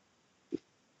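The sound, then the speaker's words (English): A single short burp, brief and faint, standing alone against near silence. “like how to not burp on a podcast.”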